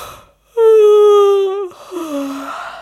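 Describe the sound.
A voice imitates a tired woman's yawn: a long, loud, drawn-out moaning tone that glides slightly downward, followed by a shorter, lower, sigh-like tail.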